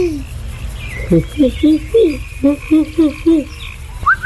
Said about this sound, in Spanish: ¿qué es ese ruido? Yo creo que es un ave. Tranquilos, amigos, eso es normal. Alguna ave nocturna.